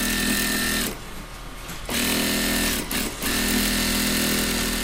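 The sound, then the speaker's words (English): Industrial sewing machines stitch seams on denim jackets in a garment workshop, giving a loud, steady high whir. The whir stops for about a second, starts again, dips briefly, then runs on. “Under the glow of fluorescent lights, workers sit at rows of sewing tables next to a towering shelf stacked with reams of colorful”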